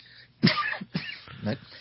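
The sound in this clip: A person coughs three times in quick succession, each a short, harsh, moderately loud burst at a steady pace.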